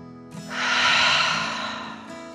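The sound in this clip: A long, deep breath that swells to a broad, airy rush and then eases off, voiced as a dragon's breath in a children's bedtime story, with a faint low tone underneath.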